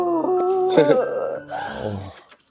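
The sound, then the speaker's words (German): Video game wailing: eerie, harmonic moaning voices that waver and bend in pitch and overlap one another, with a couple of sharper cries in the middle, before the drawn-out howls fade away. “Okay, das war das mit den Geheule.”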